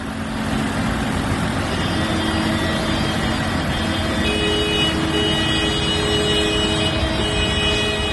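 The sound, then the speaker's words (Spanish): Continuous road traffic during farmers' tractor protests in La Rioja, with slow convoys blocking motorways and main roads. A steady, loud engine rumble runs throughout with sustained tonal drones and no talk. “Este que escuchas es el sonido en las carreteras. Estos días las tractoradas han cortado autovías y principales vías de la red de carreteras de La Rioja.”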